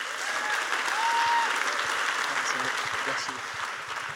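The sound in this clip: Audience applause welcoming a guest speaker at a Christian ministry gathering: sustained, loud clapping that swells early and eases slightly toward the end, with scattered voices and cheers mixed in.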